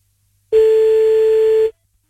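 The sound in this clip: A telephone ringback tone heard while calling someone back: one steady, fairly loud mid-pitched tone lasting just over a second, alone with no talk.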